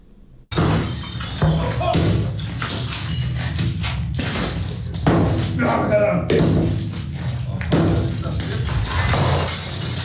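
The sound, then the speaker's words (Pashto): People smashing objects in a rage room set up in a garage in Riga, Latvia: loud, dense crashes and shattering impacts follow one another almost without pause across the whole stretch after a brief quiet start. “په لاتویا کې په یوه خونه کې خلک شیان ماتوي. دا خونه نه ده، ګراج دی، خو اوس دا ځای د قهر په خونه مشهور شوی.”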